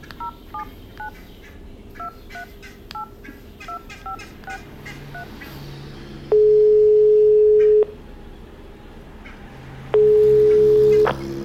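Touch-tone dialing beeps on a telephone, a quick run of short tones, followed by two long, steady ringing tones while a call is placed to return a message.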